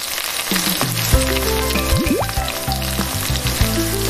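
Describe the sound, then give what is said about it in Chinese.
Pork pieces crackle and sizzle as they are double-fried in hot oil, a loud, dense, continuous frying hiss that holds steady throughout without pause. “这个复炸咱不要炸太久，炸差不多30-40秒或者1分钟就顶够了。我觉得差不多了啊。听出来这个声音啊。”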